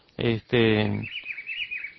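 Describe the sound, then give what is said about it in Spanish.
A chivi vireo, called Juan Chiviro, a bird of the country's hill woods, sings. After a brief voice, thin, high-pitched warbling chirps follow in a quick, faint series. “Bueno, este se llama Juan Chiviro, que es un pájaro muy bonito, ¿no? Que se ve sobre todo en los montes de nuestro país, ¿no?”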